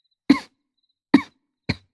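Three short, sharp coughs, each standing alone in silence: two evenly spaced and strong, and a final, slightly weaker one that follows more quickly.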